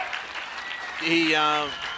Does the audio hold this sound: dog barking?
no